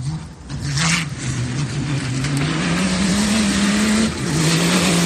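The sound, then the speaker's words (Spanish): Dakar rally race vehicle engines rev loudly in one continuous roaring drone, its pitch climbing gradually over several seconds before a brief dip near the end. “¿A qué suena el Dakar?”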